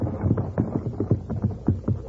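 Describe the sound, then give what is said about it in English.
Hooves of a horse team clip-clop as it pulls a wagon along a road, a steady run of many rhythmic beats at a moderate pace. “Listen. That's a team and wagon. And it's heading right down the road where the horses are hidden.”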